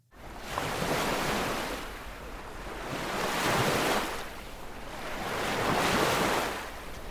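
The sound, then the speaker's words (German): Waves wash onto the shore of a large lake at 800 metres at the foot of the Andes in Patagonia, coming in three broad, hissing surges that swell and ebb in a slow rhythm, with no voices. “Was man hier hört, ist nicht etwa eine Meeresbrandung. Nein, ich sitze am Ufer des Nahuel Huapi.”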